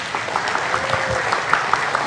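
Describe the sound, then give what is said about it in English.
Applause from a church audience giving a clap offering during a worship service: steady, dense clapping from many hands, moderately loud, with no pauses across the short stretch. “clap offering to the Lord”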